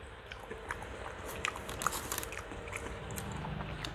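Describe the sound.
Chewing of a mouthful of rice during a meal: soft, faint crunches and small moist clicks that repeat irregularly over a few seconds, with no talking.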